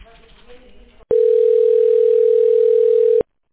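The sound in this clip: A telephone line tone sounds while a call is transferred to a medical centre's patient care department. The steady single-pitched tone starts abruptly after quiet line noise, holds at one loud level for about two seconds, then cuts off sharply.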